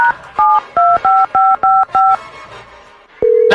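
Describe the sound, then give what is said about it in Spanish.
Touch-tone telephone dialing as a call is placed: a rapid run of short, clean, evenly spaced keypad beeps, a brief pause, then a long, loud, steady tone. “ahí te va, ahí está marcando, ahí está marcando, ahí está marcando”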